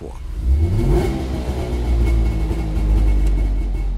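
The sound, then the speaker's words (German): A Melkus East German two-stroke sports car engine revs hard. Its buzzing harmonics climb steeply near the start, then it settles into a loud, rough, steady drone with slight wavering in pitch. “Das Auto ist ja nicht nur optisch unverkennbar, sondern auch vom Sound und vom Geruch her.”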